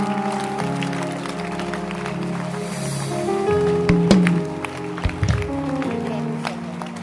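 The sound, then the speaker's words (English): A church audience claps along with keyboard music while a preacher speaks. The claps land irregularly under the music and voice, and a few sharper hits stand out near the middle. “Can you keep clapping? Don't stop clapping.”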